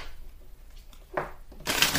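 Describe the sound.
Tarot cards are shuffled and drawn: a faint papery rustle, then a short brushing burst and a louder, denser riffle at the end, all quiet and without talk.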